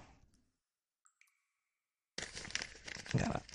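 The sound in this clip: Paper and plastic packaging crinkles and tears as a mail package from a post office box is opened. A dense, rustling burst follows a brief near-silent pause.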